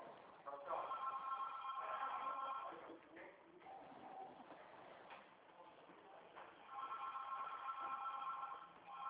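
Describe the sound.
A telephone rings in two long bursts of steady warbling tone, separated by a few seconds of quieter background, each burst moderately loud and sustained.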